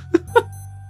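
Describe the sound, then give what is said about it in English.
A Casio digital watch alarm sounds as two quick, high electronic chirps over a low steady hum. “Although I do recognise that. That's the sound of a Casio watch going off.”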